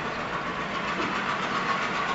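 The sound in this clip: A train rumbles past in a steady, unbroken drone with a faint rhythmic rattle, holding an even, moderately loud level throughout.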